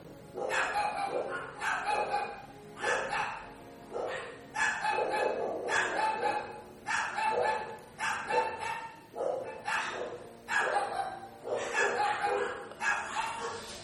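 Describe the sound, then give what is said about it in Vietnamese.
Neighbour's dogs barking over and over, many loud barks and yips coming in a steady, restless rhythm with brief pauses between bursts and no break in the barking. “Bây giờ đến lượt là chó nhà hàng xóm biểu tình.”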